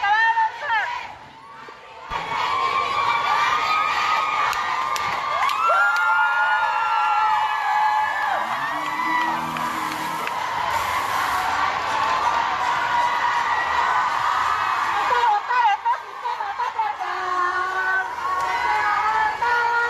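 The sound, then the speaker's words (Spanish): A protest crowd chants slogans as a march sets off from the esplanade of the Templo Expiatorio, with many voices shouting and calling out together in a steady, dense roar that barely lets up. “esta concentración pues comenzó a partir, y lo hizo con consignas como las que vamos a escuchar a continuación.”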